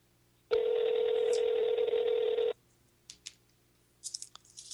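A telephone gives a steady dial tone that holds for about two seconds and then cuts off. A few faint short beeps and clicks of number dialing follow in the quiet.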